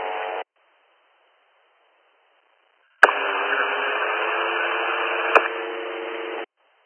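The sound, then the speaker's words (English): Radio static from an unreadable signal: a brief burst of hiss, a few seconds of silence, then a longer steady band of static with sharp clicks at its start and near its end before it cuts off. “7302, 7307, that's all static.”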